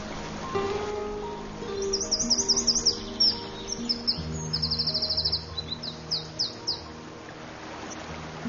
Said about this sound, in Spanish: El mirlo acuático europeo se siente como en casa.